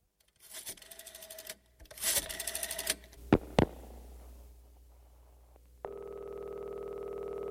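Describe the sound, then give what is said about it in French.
A telephone goes off, starting with buzzy electronic bursts and two sharp clicks, then settling into a steady harmonic ringing tone that holds, moderately loud, until the end. “Allô, c'est toi, Paul? Oui, qui est à l'appareil?”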